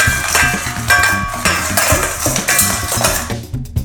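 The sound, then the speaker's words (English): A spoon stirs orange juice into donut batter in a bowl, making steady clinking and scraping against the bowl with no pause throughout. “Stir the wet mixture into the dry ingredients until just combined. And now we make it a soup by putting orange juice in the bowl. And mix it up.”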